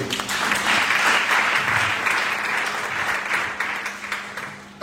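An audience applauds in church to acclaim the Lord, sustained and fairly loud clapping from many hands that holds steady before easing slightly toward the end.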